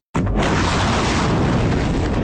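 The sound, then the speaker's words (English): Iranian missiles launching against Israel: a sudden, loud, dense roaring blast that starts abruptly and holds as a continuous rumbling, hissing wall of noise for about two seconds. “This is the sound of a war escalating. Iranian missiles launched against Israel, the first since a ceasefire of sorts was agreed in April.”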